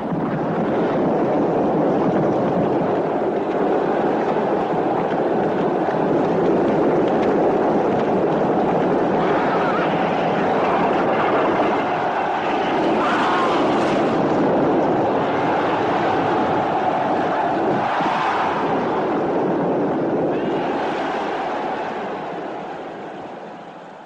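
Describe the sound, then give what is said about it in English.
Chariot race scene from a 1950s Best Picture film: a dense, continuous rumbling roar that stays loud and steady for over twenty seconds, tapering slightly at the very end. “All right, let's play a little bit of the chariot race while we round out the 50s, and then we'll come back to starting the 60s.”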